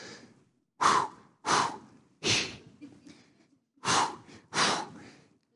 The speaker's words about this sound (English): So I took the Lamaze class. So we did all of the breathing exercises.